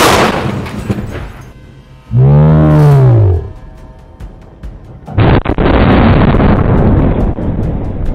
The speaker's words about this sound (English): Gun is hot. Ready? Yep. Fire!